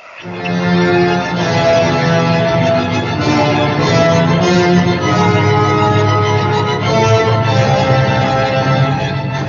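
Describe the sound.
Dark, brooding orchestral music, loud and densely layered, with sustained strings and low brass playing without pause and no voices.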